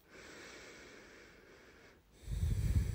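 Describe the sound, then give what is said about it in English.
Slow, deep breathing during a guided meditation: a long, steady, airy breath, then a louder, rougher, low-pitched breath. “You're going to start to breathe in deeply. A few more breaths here.”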